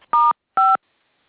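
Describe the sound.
Two short telephone keypad tones sound in quick succession as a conference call line is unmuted: steady, bright electronic beeps separated by a brief gap, with silence afterward and no talking.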